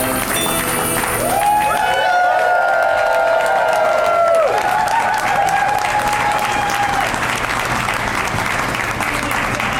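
Audience clapping along to a Christmas song at a live comedy taping, a loud, dense stream of claps and crowd noise with a melodic tune running over it for much of the middle stretch.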